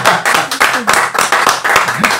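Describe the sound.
Hands clap in a steady, fairly fast rhythm of sharp, loud strikes lasting about two seconds, briefly mixed with a voice.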